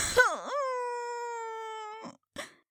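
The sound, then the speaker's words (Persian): A child's crying wail after falling down: one long, loud sustained cry that dips in pitch briefly at the start and then holds steady, followed by two short sobbing bursts. “تو نباید به خاطر زمین خوردن گریه کنی. آخه دردم گرفته.”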